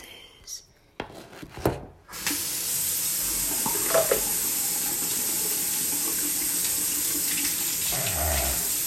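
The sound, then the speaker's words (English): A tap runs steadily while hands are washed to rinse ant poison off a wrist. A few knocks and handling noises come first, then the water flows as an even, continuous hiss. “Hold on, the next one's gonna be me washing my hands because I got ant poison on my wrist.”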